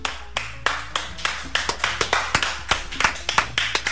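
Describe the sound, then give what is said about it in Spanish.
Clapping from a couple of people in an audience, a quick, fairly regular series of sharp claps over a low steady hum. “qué bueno que está la gente que aplaude, Ortuño. Está la gente que aplaude, ahí están bastante arriba, ahí hay dos.”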